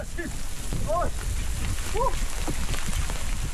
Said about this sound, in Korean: 마른 하늘에 날벼락입니다. 방금 전까지만 해도 좋았는데 우박까지 떨어져요.